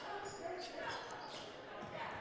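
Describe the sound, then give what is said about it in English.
A basketball is dribbled up the court during the Exeter versus Daniel Boone high school boys game, its repeated bounces soft and partly buried under a commentator's steady play-by-play. “He's got the dribble coming back up court.”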